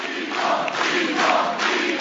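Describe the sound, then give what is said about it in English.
Supporters of Josipovic celebrate first-round presidential election results. A crowd keeps up a continuous roar of cheering voices. “Josipovic's supporters are already celebrating.”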